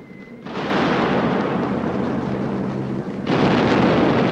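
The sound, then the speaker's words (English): Explosions shaking a building during a bombing raid: a loud, sustained rumbling roar of dense noise that barely lets up, then a fresh heavy surge hits near the end. “As the building reverberates from the explosions, dust falls from the ceiling, and lamps start to shake.”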